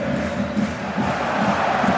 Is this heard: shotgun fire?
no